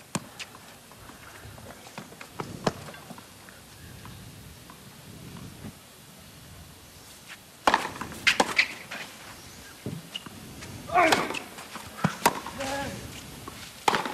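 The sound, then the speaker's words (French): Powerful forehand strikes ring out in a professional men's tennis match against an Italian player: a few sharp, percussive ball hits, some in quick pairs, over a low background hum while a commentator talks. “Encore une grosse frappe de coup droit.”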